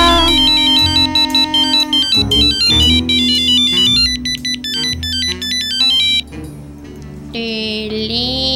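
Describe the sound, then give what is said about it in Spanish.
A telephone ringtone plays a bright, high electronic melody of quick repeating notes over a musical backing. It stays loud throughout and shifts to a different sustained tone near the end. “Teléfono.”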